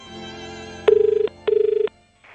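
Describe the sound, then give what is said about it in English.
An old telephone rings for an incoming call, giving two loud, rapidly trilling bursts with a short pause between them. A faint sound follows, and no one speaks. “Now, it's a long phone number. These phones are so old.”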